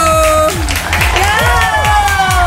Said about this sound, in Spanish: ¡Ah! Aplausos para mí, por supuesto.